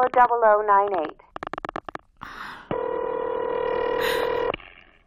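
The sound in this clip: A telephone call to a Murray Hill number: a voice speaks briefly, then a short run of clicks on the line, followed by one long, steady ringing tone before it cuts off.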